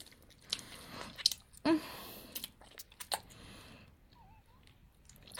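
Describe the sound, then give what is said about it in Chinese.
Someone eats an ice lolly with cream inside. Faint, scattered crunchy bites, smacks and squishy chewing sounds come irregularly, with one sharper crunch standing out. “这个冰棍真好吃，里面还有奶油。”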